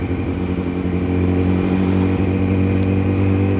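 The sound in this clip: A motorcycle engine hums at a steady low pitch as the bike rides slowly past stationary cars in a traffic jam, a loud, even drone with no revving or talk.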